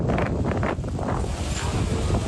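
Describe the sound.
Strong storm wind in Istanbul's Esenler district roars and buffets the microphone in loud, continuous gusts, with no voices.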